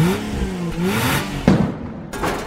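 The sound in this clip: A car engine revs hard in a drag racing setting, a loud, sustained roar with a sharp burst midway before it eases and then surges again.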